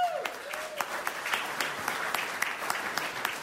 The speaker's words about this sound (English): How about a big round of applause?